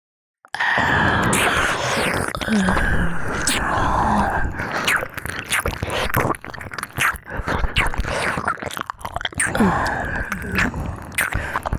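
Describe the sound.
Loud, wet chewing and biting as someone eats greedily, continuous for about eleven seconds, with crunchy, smacking mouth sounds and breathy noises mixed in.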